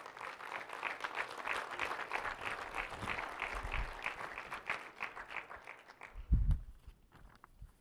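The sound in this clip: Audience applause welcoming a speaker to the stage: dense, even clapping holds for about five seconds, then thins and dies away, followed by a single low thud.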